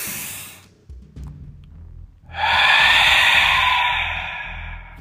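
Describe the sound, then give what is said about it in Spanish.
Deep inhale through the nose: after a quiet pause, a long, loud breathy rush that holds steady for nearly three seconds before easing slightly. “Inhalando profundamente por la nariz.”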